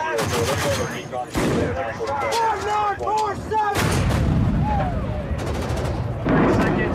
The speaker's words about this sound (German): Halt, Feuer! Siehst du ihn? Ich habe nur den Staub der Detonation gesehen.